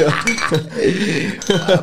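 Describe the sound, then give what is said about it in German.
Glasses clink in a toast among a group of men, with a few bright, ringing chimes rising over overlapping voices. “Prost, Jungs, auf die Model. Prost auf die Tom-Tom. Prost, ja. Prost.”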